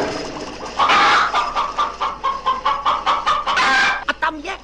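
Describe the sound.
Chickens cluck in a henhouse in a quick, squawky run of many sharp clucks. The clucks pulse steadily and loudly, with no voices.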